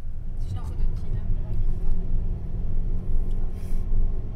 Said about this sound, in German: viel Zeit in ihrem Auto in einem schwarzen Mini verbringen. Wir fahren einmal quer durch den ganzen Kanton Aargau und der ist gross.